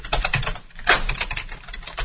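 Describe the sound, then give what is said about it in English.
Fast clicking of a computer keyboard as a fake email address is typed, many light key taps in a quick, uneven rhythm with one brief pause partway through. “Now I can type in a fake email address and press Tab.”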